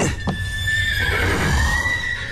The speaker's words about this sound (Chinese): 我来看看这个咬人的马